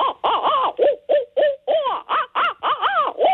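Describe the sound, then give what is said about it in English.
Caterwauling calls of a bird, wild, wavering cries often likened to monkey calls or demonic laughter, given in a rapid, loud series of many harmonic hoots and whoops with bending pitch. “the initial calls that you were talking about hearing are what we call caterwauling, and they're very often described as monkey calls or demonic laughter”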